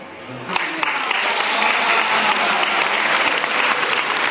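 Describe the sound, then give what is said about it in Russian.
An audience applauds, starting a little quieter and quickly swelling into thick, sustained clapping that carries on steadily to the end. “Браво, Валентин! Аплодирую стоя!”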